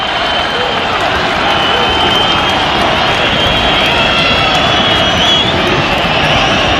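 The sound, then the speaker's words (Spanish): Steady, dense roar of a football stadium crowd in Granada after a goal and a substitution, a continuous loud wash of massed voices with no distinct cheers or chants standing out. “Escuchamos a nuevo Los Cármenes.”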